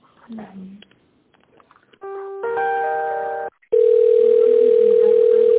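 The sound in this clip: Telephone line tones during a call transfer: a brief voice at the start, then a steady multi-toned electronic tone, a short gap, and a louder continuous single-pitched tone holding to the end.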